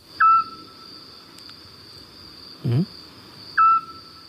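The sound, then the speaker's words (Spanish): Eurasian scops owl calling at night: two short, clear whistled notes at a steady mid pitch, well spaced and alone against a faint, steady background hum, with one brief low thump between them. “Este sigue un autillo. Qué bonito, ¿eh? Qué bonito canta, además, ¿no?”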